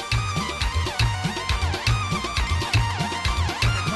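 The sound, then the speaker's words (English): Afghan wedding music from a one-man band with electronic instruments: a driving, regular electronic beat with pulsing low bass and bright keyboard lines, loud and continuous throughout. “Many Afghan weddings now feature one-man bands with lots of electronic help. It sounds like this.”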